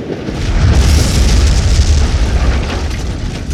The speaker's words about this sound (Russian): Ух, как бабахнуло! Полмоста взорвалось! Поезд сошел с рельсов, первые вагоны вообще в реку посыпались!